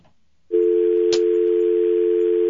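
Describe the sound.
A telephone line's dial tone: after half a second of near quiet, a steady, loud, unbroken hum starts and holds to the end, with one sharp click partway through.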